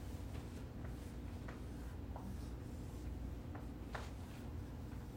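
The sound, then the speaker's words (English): Faint strokes of a pen or marker sketch a lid topped by two angels with outstretched wings. A few short, scratchy strokes come at irregular intervals over a quiet, steady hiss. “So I'm going to try to draw that. All right, I'm going to move over here. Here's what it looked like.”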